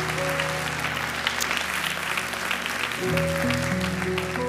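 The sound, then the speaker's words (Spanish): Applause from a church audience during a Spanish-language sermon: steady, dense clapping throughout over sustained musical tones, with a held note that shifts near the end. “Damos una ofrenda de palmas todos juntos.”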